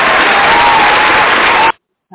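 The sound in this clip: Applause, a dense, steady wash of clapping that cuts off abruptly, followed by a brief voice.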